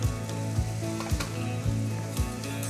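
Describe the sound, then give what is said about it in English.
Butter melts and sizzles in a pan as the base for a flour-thickened stock, giving a steady frying hiss with faint, regular low knocks about every half second beneath it. “Get the butter melting. What we don't wanna do is brown the butter here”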